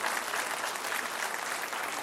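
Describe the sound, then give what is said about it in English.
An audience applauds the mothers at a Mother's Day gathering, with steady, dense clapping that stays at an even level throughout and has no clear voices over it. “Moms, will you stand up? We just want to give you a round of applause.”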